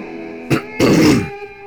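Someone clears their throat and coughs in two rough bursts, a short gruff catch followed by a longer, harsher rasp, then quiet.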